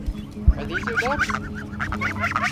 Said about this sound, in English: A few minutes later, she wanted to show me her geese. I don't think I've seen geese in a long time.